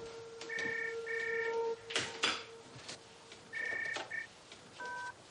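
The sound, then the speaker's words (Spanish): A touch-tone telephone is dialled as a woman lifts the receiver in a house to place a call. Several steady two-tone key beeps of varying length sound, with soft handling clicks between them, all fairly quiet. “la mujer ve llegar el vehículo y descuelga el teléfono para hacer una llamada.”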